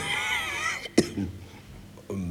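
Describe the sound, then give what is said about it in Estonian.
A guest in a home gives one light cough or throat clearing, short and sharp, set between stretches of other sound. “Külaline hakkas ka kergelt köhatama.”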